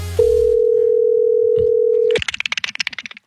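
A steady telephone dial tone holds for about two seconds while a call is being placed, then cuts off into a rapid, uneven run of short, bright pulses that continue to the end.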